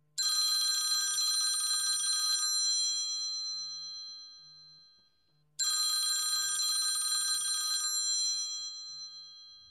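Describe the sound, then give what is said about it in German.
A telephone rings while a call is being placed: two long, bright, trilling rings of about two seconds each fade out after a pause of about three seconds, with a faint, low, pulsing tone underneath. “dann lass uns Wolfgang gleich mal anrufen.”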